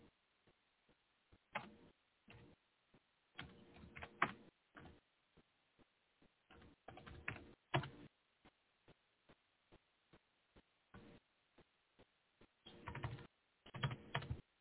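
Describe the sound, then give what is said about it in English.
Typing on a computer keyboard: many quiet, irregular bursts of rapid key clicks separated by short pauses, with no talk over them. “I'm typing it in now.”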